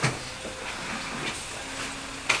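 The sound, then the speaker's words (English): A new fancy coffee maker runs with a steady, steamy hissing rush and faint wavering tones, then ends in a short, louder burst. “Yeah. It's a new fancy coffee maker. Air raid. It does sound like it's an air raid.”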